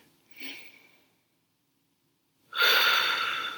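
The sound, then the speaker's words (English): A deep breath drawn in through the nose: a faint short sniff, a stretch of silence, then a loud, sustained airy inhale that fills the end. “Let's take a deep breath. Let's take a pause and breathe in through your nose”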